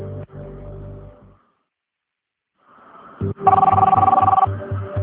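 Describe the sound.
A telephone rings during an outgoing call in a single trilling burst of about a second. It comes after soft background music and a short stretch of near silence, and the music continues beneath it.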